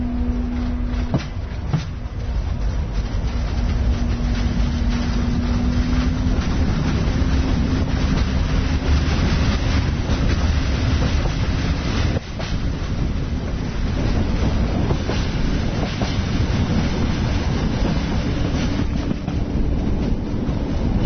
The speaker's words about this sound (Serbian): Sad ćete čuti i prve zvuke. Voza koji se pokreće, što je uvek lepo, i asocira na putovanja. Zahuktava se lokomotiva, krećemo.